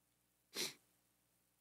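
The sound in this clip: A single short sneeze, a brief breathy burst heard faintly and on its own.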